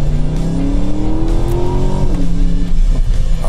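A 2,245 kg non-battery car accelerates hard in Sport Plus mode, its loud engine note climbing steadily in pitch, dropping once partway through, then pulling on strongly, with no talk over it.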